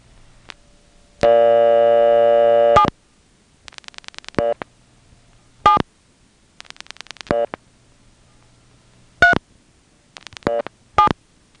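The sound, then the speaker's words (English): A telephone number is dialed on a phone line. A steady tone lasts over a second, then several clustered groups of short tonal beeps follow, each set distinct and clear, with quiet pauses between them. “Anyway, let's see what's on 7. I'm going to dial 773799.”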